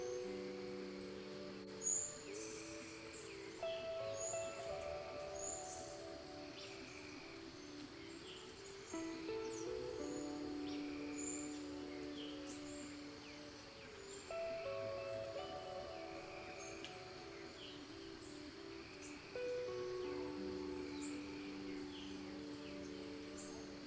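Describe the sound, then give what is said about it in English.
Tropical old-growth rainforest ambience with tree frogs and birds: dense, continuous layers of chirps, trills and repeated calls, steady and moderately quiet throughout, with a brief sharper note early on. “tree frogs, birds, and other sounds you can't identify.”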